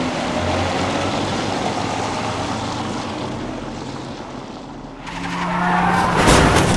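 A car pulls away in the darkness, its engine and tire noise holding steady and then swelling louder near the end, with no voices.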